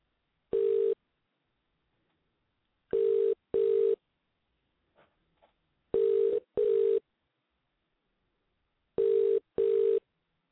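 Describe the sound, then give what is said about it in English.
Ringback tone of an international phone call to the UK: one lone ring burst, then three steady double rings at a mid pitch with long silent gaps, plus two faint clicks in between. “Let's see if I get Kevin on the line here. I always have trouble when I dial out to the UK. Those two extra digits always throw me off. Let's see if I got it right here.”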